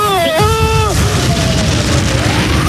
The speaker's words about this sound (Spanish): bomba y esto va a explotar